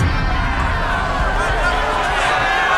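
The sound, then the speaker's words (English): Angry crowd babble in a dramatized biblical scene of people mocking and throwing stones, a dense, steady roar of many voices that runs without a break. “Who are these people, John? They are throwing stones and mocking Jesus.”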